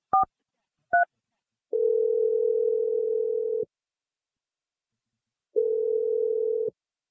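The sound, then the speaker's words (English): A telephone call being placed: two brief keypad tones, then two long, steady ringing tones of the same pitch with a long silence between them. “I'm dialing her number right now. Here we go.”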